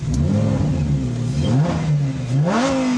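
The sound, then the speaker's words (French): A Lamborghini Huracan V10 engine revving: a loud, continuous roar that swells into a rising-pitch rev near the end. “une Huracan, ça ne se démarre pas, ça se met à feu. Armement, prêt, feu!”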